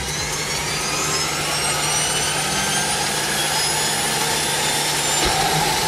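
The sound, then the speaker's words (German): Aircraft propeller engines start up with a loud, steady mechanical drone and a high whine that climbs slowly in pitch. “Wir starten die Propeller.”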